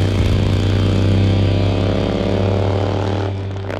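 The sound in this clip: A Harley-Davidson motorcycle engine gives a loud, deep, steady rumble that holds for several seconds and eases off slightly at the end.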